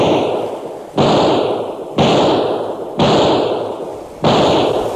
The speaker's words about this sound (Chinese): 五枪，五个钢板靶应声落地。